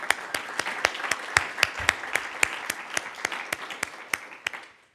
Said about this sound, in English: So let's give them a hand.